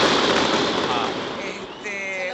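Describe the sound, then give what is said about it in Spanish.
Fireworks crackle through a night celebration on the 25 de Mayo holiday, a dense, continuous roar of pops and bursts that stays loud throughout and eases slightly toward the end. “Los fuegos artificiales que forman parte de, que han sido un marco maravilloso de esta fiesta de esta noche.”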